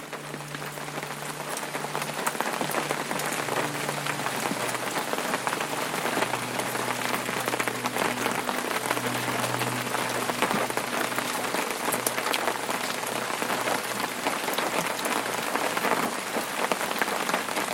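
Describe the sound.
Rain falling in a steady, dense hiss that holds an even level from start to finish, with a soft low hum underneath.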